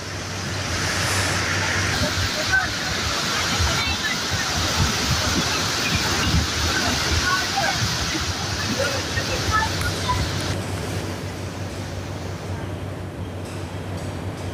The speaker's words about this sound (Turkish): Şiddetli yağış Samandağ ilçesinde sele dönüştü. İlçeden geçen Hıdır Bey nehri taştı.